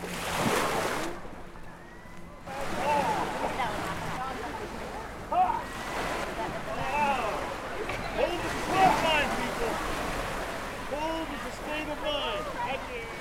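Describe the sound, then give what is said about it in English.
People wading into cold sea water in Puget Sound: steady surf and wind noise throughout, with many short vocal gasps and exclamations over the rushing water. “That is the sound of people getting into Puget Sound.”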